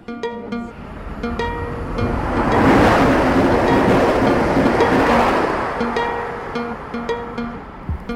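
Train station ambience: a broad rushing roar swells through the middle and fades again, with steady tonal hums and scattered clanks sounding throughout.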